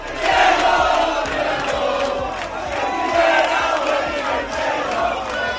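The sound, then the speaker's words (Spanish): Hundreds of Real Oviedo supporters welcome their football team in the early hours of the morning at the airport and the Carlos Tartiere stadium. Loud massed voices chant continuously, punctuated by sharp claps. “centenares de aficionados del Real Oviedo han recibido al equipo azul esta madrugada en el aeropuerto primero, a su llegada a Asturias, y en el Carlos Tartiere después.”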